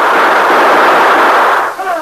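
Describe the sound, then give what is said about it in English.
Gunfire in a shootout between outlaws and defenders of a shack in darkness: a loud, sustained burst of roaring noise that cuts off abruptly, followed by a brief voice. “Then in the darkness, he and Jack would stand on opposite sides of the room to return the fire of the outlaws who had spread out to surround the shack.”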